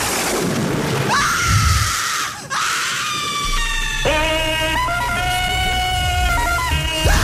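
A loud jungle-man style yell of joy: a long shouted cry with several held, wavering tones and breaks in pitch, sustained for several seconds.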